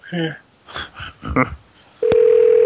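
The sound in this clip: A telephone line tone as a call is placed to a telemarketing company: a sharp click, then a loud, steady, unbroken tone holding to the end. Before it come a few short bursts of voice-like sound.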